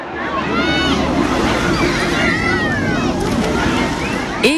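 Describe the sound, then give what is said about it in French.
Swimmers' ambience at the Ballastière gravel-pit lake in Bischheim: a dense, steady wash of splashing water and many overlapping voices and shouts, loud throughout. “La gravière de la Ballastière à Bischheim, l'ambiance est déjà à la baignade.”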